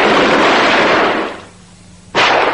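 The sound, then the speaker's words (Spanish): A firing squad rifle volley executing a soldier: a loud, crackling roar that decays over about a second into near quiet, then a second abrupt, loud blast breaks in. “Fue fusilado con honores militares.”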